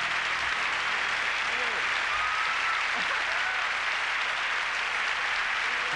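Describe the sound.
Studio audience applause, a dense, steady wash of clapping held at an even level throughout, with faint shouts rising briefly above it.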